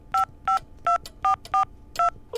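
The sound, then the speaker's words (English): Touch-tone telephone keypad beeps as a phone number is dialed: six short, evenly spaced dual-pitch tones, with a seventh cut off at the end, each clear and loud over a faint hiss. “Call his home number. I'm sure it's in the phone book. Here it is.”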